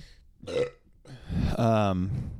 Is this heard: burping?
yes